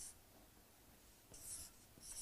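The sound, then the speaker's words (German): Handwriting scratches faintly on its own, with soft continuous strokes and two brief, crisper bursts of quick scribbling near the end. “ich probiere es mal aufzuschreiben”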